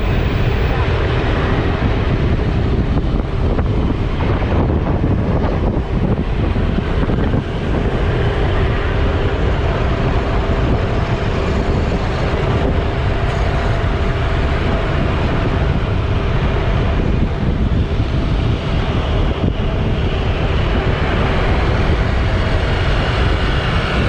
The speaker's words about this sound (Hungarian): És ez a motorozás pedig így hangzott.